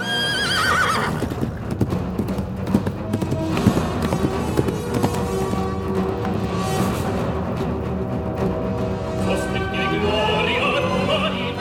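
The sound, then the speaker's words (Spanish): A horse gallops at full speed, hooves drumming in a fast, steady clip-clop throughout, with a high whinny near the start and a dense rushing noise underneath. “salió a todo galope hacia el teatro para buscar al doctor.”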